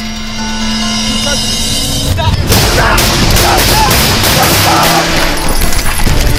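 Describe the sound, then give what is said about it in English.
Gunshots fired during a police shootout in Decatur, Illinois: after a couple of seconds of steady background hum, a rapid burst of many loud, sharp cracks begins and continues in an irregular volley to the end. “Shots fired!”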